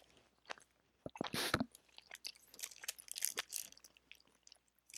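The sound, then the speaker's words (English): Crunchy chewing of an edible: a run of sharp, irregular bites and wet mouth noises, loudest in a dense burst early on, then steady smaller crunches with no talk. “Let's eat this edible.”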